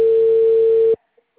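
A steady telephone line tone on a call to a number that is not answering, buzzy and mid-pitched, holds for about a second and then cuts off abruptly into near silence.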